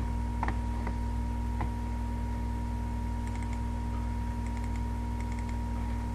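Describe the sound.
Credentials being typed on a computer keyboard: faint, sparse keystroke clicks, a few alone and then small quick clusters, over a constant low electrical hum.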